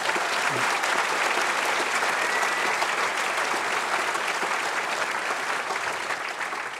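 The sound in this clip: Audience applause welcomes a speaker onto the stage, a dense, steady clapping that holds loud throughout and eases slightly at the end.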